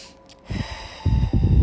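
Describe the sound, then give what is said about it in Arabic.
Deep breathing during a guided breathing exercise: a few forceful, noisy breaths that grow stronger toward the end, with no speech. “أنفاس عميقة بليز، لما تصير هذا الإدراك نفس عميق”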